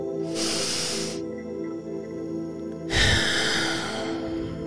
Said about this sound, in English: We're going to start with a deep breath in through the nose.